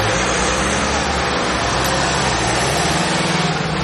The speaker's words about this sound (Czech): Z areálu krajské záchranné služby v Ústí nad Labem právě odjíždí 5 vyřazených sanitek